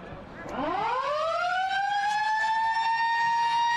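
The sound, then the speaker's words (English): A siren sounds at the end of a football match's first quarter. Its tone sweeps sharply upward, then holds a long, steady, loud wail with strong harmonics. “That's the siren to bring the first quarter to a conclusion.”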